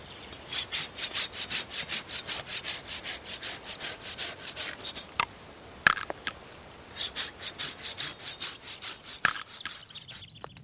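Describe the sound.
Hand saw cutting through wood in a fast, even rhythm of many back-and-forth rasping strokes, then a pause with a few knocks, then another run of sawing, with no voices.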